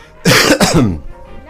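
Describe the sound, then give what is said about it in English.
A person coughs and clears their throat: two harsh, loud bursts in quick succession, trailing off into quieter throat noise. “I have to cough again, clear my throat, hold on a second.”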